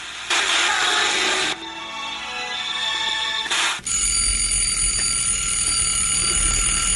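An alarm clock rings loudly with bright, continuous metallic bell-like ringing. The pattern shifts a couple of times before the ringing settles into a sustained tone, with no voices.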